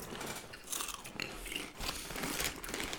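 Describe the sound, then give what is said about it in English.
Loud crunching of regular Lay's potato chips being bitten and chewed. There are many crisp, crackling bursts in quick succession with no talking. “These, of course, these are a classic for me. Regular Lay's, here we go.”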